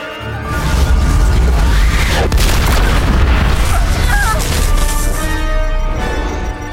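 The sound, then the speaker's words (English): Sci-fi plasma weapon fire and an impact explosion: a loud, sustained roar of booming blasts that fills nearly the whole stretch, then eases off at the end. “They're firing their plasma weapon.”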